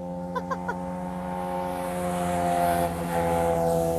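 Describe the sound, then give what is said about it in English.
Motorcycles ride past on a summer day in British Columbia, a steady buzzing engine drone with strong humming tones that swells slightly in loudness, with a few faint clicks near the start and no talk. “See, that's what I said. Summer in BC, all the bikes are out. They're loving life.”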